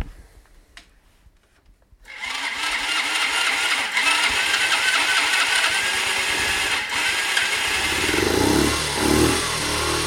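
A motorcycle engine starts after about two seconds of near-quiet, then runs steadily with a loud, rough, rumbling idle and dense mechanical clatter until the end, with slight swells in level late on.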